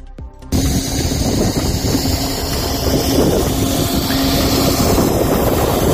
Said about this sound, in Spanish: Sonido del viento allí arriba y los cañones de nieve artificial encendidos.